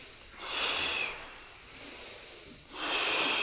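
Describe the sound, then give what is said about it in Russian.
Forceful breathing from a kriya breathing exercise, with candle-blowing exhales and inhales: two strong, hissing rushes of breath with a softer, steadier breath between them, and no talking. “Задувание свечи, вдох. Мощнее вдох.”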